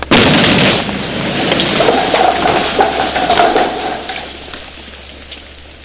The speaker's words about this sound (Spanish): En estos momentos vamos a hacer una voladura de una roca aproximadamente 6 metros radio.